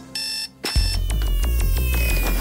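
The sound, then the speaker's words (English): An electronic alarm clock rings in one brief, bright, high beeping burst. It cuts off and gives way to music with a steady beat. “getting up and hitting the alarm clock and going to work and doing it”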